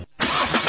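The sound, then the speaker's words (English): Car engine starting: a brief pause, then the engine catches and settles into a steady running roar, all in under a second. “This is the sound of a car engine.”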